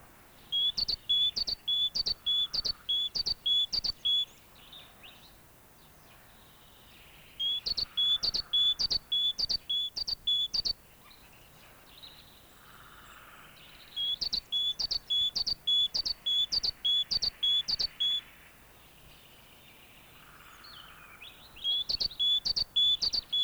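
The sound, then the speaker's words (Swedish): Great tit song: four separate bouts of rapid, high-pitched repeated two-note phrases, each lasting a few seconds with quiet gaps between, clear and alone with no voices. “Det var kråka, nu följer talgoxe.”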